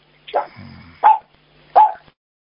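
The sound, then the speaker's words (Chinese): A dog barks three times, loud and sharp, with short, roughly even gaps and a brief low rumble after the first. There is no other sound. “要命！他看到东西了，你们家的狗看到东西了。”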